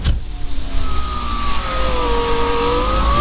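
Electric window motor whining as the glass of a not-very-new car is lowered, a thin steady tone that slowly bends in pitch over a constant low engine hum, lasting about three seconds with no voices.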